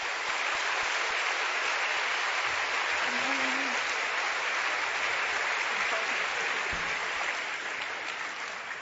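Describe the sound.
Sustained applause from an audience welcoming a guest speaker keeps a thick, even, moderately loud texture for the whole stretch, with no break in the clapping.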